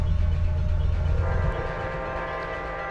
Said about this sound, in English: That is my train.